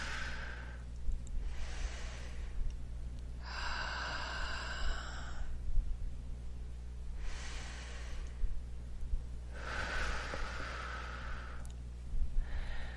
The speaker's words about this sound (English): Okay, nice breath in. And exhale.